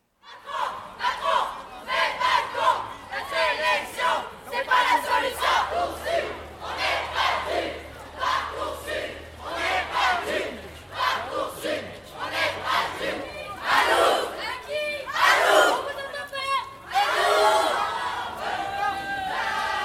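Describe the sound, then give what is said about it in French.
Students rally in protest outside the education office in Lyon, a crowd chanting and shouting in repeated loud bursts over a continuous bed of crowd noise. “un rassemblement a eu lieu devant le rectorat en fin de matinée après une manifestation dans les rues de la capitale des Gaules. Rémi et moi y étions, l'ambiance était plutôt animée.”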